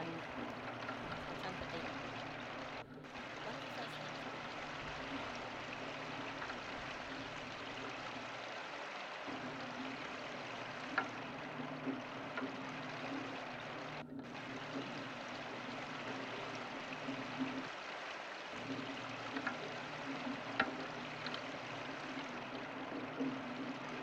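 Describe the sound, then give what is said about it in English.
Water runs from a sink tap into a kettle being filled about halfway: a steady, full rushing hiss that continues without a break, with only a few brief dips in tone. “So I'm boiling a kettle, I'm filling it up now in the sink. Halfway. And I'm going to boil it.”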